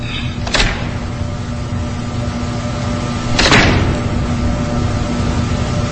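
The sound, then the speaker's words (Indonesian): A room door is closed at nightfall. Two brief swishing door sounds come about three seconds apart over a steady low electrical hum, with no voices. “Aku pun menutup pintu ruangan dan berjalan keluar.”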